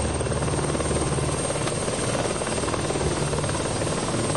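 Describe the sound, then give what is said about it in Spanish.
A police helicopter takes off with a loud, steady, continuous rotor and engine roar. The thick noise stays level throughout, with no voices heard. “un helicóptero de la policía recoge al escritor y Amelia lo acompaña. Unos agentes los guían hasta el aparato, donde ambos suben para luego iniciar el despegue.”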